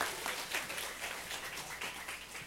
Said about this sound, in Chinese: 这个就是我们的信仰，给神掌声好吗？